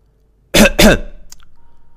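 A dry cough, heard as two quick, harsh throat-clearing bursts, loud and alone, followed by a faint fading ring.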